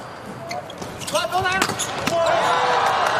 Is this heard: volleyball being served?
yes

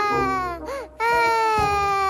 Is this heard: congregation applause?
no

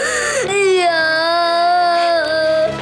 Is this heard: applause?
no

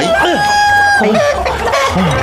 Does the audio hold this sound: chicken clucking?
yes

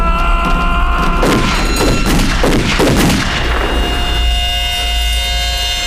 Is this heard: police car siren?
no

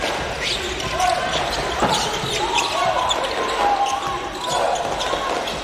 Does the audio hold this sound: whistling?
no

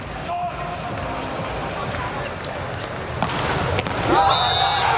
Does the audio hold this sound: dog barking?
no

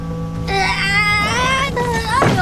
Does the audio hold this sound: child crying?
yes

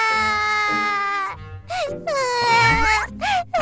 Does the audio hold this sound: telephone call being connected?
no

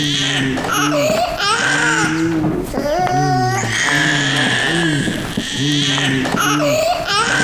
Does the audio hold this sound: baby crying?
yes

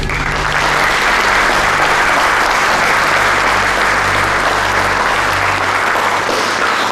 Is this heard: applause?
yes

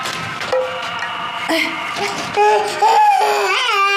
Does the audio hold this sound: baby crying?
yes

